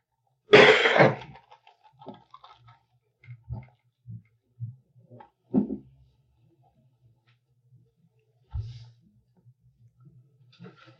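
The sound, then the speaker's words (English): A single harsh, loud cough from a person with a cold, followed by several faint scattered small sounds in near quiet. “did you get that cough since you came here? Yeah, I got a cold.”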